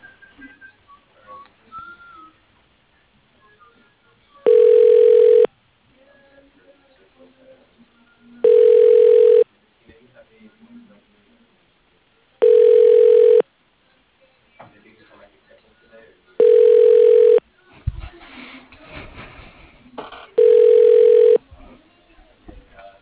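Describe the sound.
A telephone call is transferred: five evenly spaced, steady pitched ringback tones sound, with quiet line noise and faint rustling between them.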